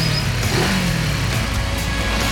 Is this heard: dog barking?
no